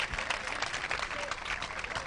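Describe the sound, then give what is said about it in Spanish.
Audience applause at a bridge load-testing contest after a bridge holds 368 kilos: a dense, steady patter of many hands clapping for about two seconds. “De hecho, un aplauso para ellos.”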